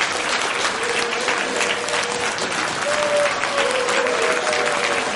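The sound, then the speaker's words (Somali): Conference attendees applaud a speech by the International Criminal Court prosecutor about the case against Kenya's president, a steady, dense wash of many hands clapping that stays at an even loudness throughout. “Hadalkeeda ayaa waxaa lagu soo dhaweeyey sacab ay tumayeen ka qaybgalayaashii kulankaasi ay ka hadlaysay.”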